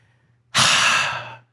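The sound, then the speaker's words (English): A single deep, heavy breath like a sigh, starting abruptly and fading after about a second, over a faint steady low hum. “Deep breath.”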